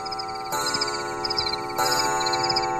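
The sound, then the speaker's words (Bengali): A clock strikes the hour at three o'clock at night with resonant, bell-like tones that ring and sustain over a steady, faint ticking. “তারপরেই ঘড়িতে টং টং করে 3টে বাজল।”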